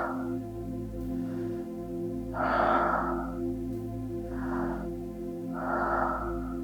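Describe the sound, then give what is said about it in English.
Deep, slow breathing in and out during a relaxation exercise: a few long, airy breaths rise and fade with quiet pauses between them, unaccompanied by any talking. “Third and last round. Breathe in. Let go.”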